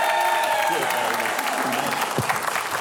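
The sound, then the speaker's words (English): Applause from a church audience in Dallas welcoming a pastor to the stage, steady clapping with a voice speaking over it. “Come on, Pastor Gordon. Good to have you here. Come on, give him a hand.”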